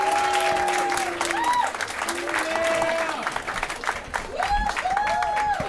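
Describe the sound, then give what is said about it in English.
An audience applauds to welcome the host of a storytelling show, the Perfect Liars Club. The clapping is full and sustained, with scattered cheering voices rising and falling above it. “Please put your hands together for Pierce McManus, the host of April's Perfect Liars Club.”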